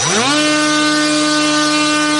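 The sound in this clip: The small engine of a Fury fixed-wing reconnaissance drone starting for launch, its buzzing pitch climbing quickly in the first moment, then holding a loud, steady, harmonic-rich whine.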